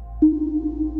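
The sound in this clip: Low-frequency sonar pong emitted by an ocean buoy: a single low, sharp-onset tone that sustains as a steady ringing hum for the rest of the moment, alone with no voices.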